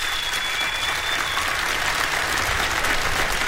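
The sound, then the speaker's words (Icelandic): Concert audience applauding the singer KK at a 70th birthday concert in Harpa, a thick, continuous rush of many hands clapping at an even, fairly loud level from start to end. “klappið fyrir honum bara”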